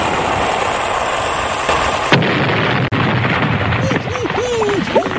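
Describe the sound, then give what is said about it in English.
A torpedo explosion against a ship rumbles as a dense, continuous roar of blast noise, broken by a couple of sharp impacts, with voices rising over the din toward the end. “Nice shooting. Your torpedo was on target, and down goes the HMS Beagle.”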